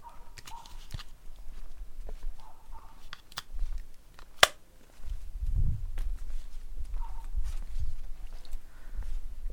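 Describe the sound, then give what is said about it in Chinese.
Slow footsteps of two people strolling home along a quiet road, soft and irregular steps with a few sharper clicks mixed in, fairly faint throughout. “那好吧，既然你也不急着回去，我们就慢慢的散步回去吧。”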